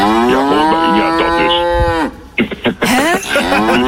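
A cow's moo played from a sound chip in a milk bottle cap as it is twisted open: one long, loud, low, drawn-out moo, followed by a few shorter bursts of sound.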